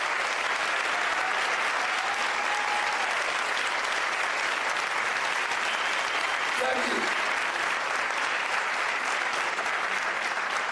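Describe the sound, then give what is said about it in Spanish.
Crowd applause at a political event, a continuous wash of dense clapping lasting around ten seconds at an even level, loud enough to drown out a reporter, with faint voices mixed underneath. “no estamos consiguiendo escuchar muy bien ahí por los aplausos.”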